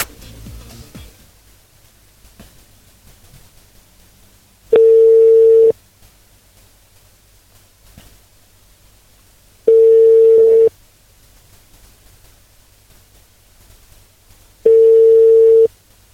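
Telephone ringback tone heard while placing a phone call: three steady, mid-pitched tones, each about one second long and evenly spaced several seconds apart, over a faint low hum.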